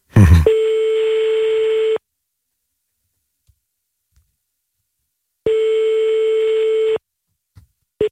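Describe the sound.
A phone line's ringback tone as a call is placed: two steady, mid-pitched electronic tones about a second and a half each, separated by a long silence, with brief clicks at the start and end.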